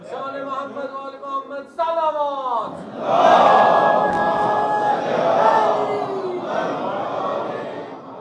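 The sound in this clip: Crowd reciting salawat in unison at a religious gathering: one voice comes first, then many voices join in a loud, sustained chant that swells and holds.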